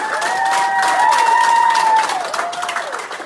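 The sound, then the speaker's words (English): Hospital nurses and staff cheer and applaud as a recovering patient is discharged. Loud, steady clapping and crowd noise run throughout, with sustained whooping tones on top that rise and fall toward the end. “The day Cruz left the hospital, the nurses and staff cheered him on and videotaped it.”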